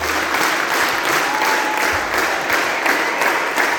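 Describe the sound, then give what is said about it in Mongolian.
Audience applause fills a Sydney theatre after a Mongolian morin khuur (horsehead fiddle) ensemble concert. Dense clapping from many hands holds at a steady, full level throughout, with no voices rising above it. “Энэ бол Сиднейн дүүрийн театрт Монголын морин хуурын чуулга бүрэн бүрэлдэхүүн нэр анх удаа тоглоход нийт үзэгчдийн илэрхийлж байгаа сэтгэл хөдлөл.”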